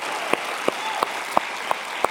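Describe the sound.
A church audience applauds: a broad wash of clapping carries six sharper claps that land in an even, steady rhythm.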